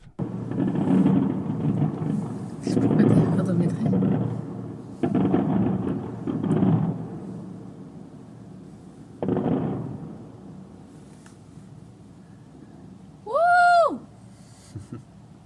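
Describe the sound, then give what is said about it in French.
Fireworks go off in Manchester on New Year's Day: several deep, rumbling booms at irregular intervals, each with a rolling tail, followed by a quieter stretch. “Manchester, feu d'artifice, 1er janvier 2019.”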